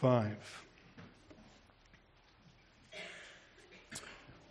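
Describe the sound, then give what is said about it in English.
Pages of a Bible turn with a few soft papery rustles and swishes, separated by quieter pauses, with a brief voice at the start. “It's a nice sound of pages turning, isn't it?”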